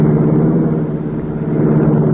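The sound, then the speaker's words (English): A powerful, streamlined race car engine roars into life. The sound is a loud, steady, low rumbling drone that holds without a break for the whole stretch. “The race car roared into life.”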